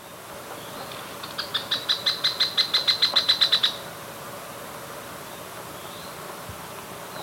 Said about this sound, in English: Buff-browed foliage cleaner, 1.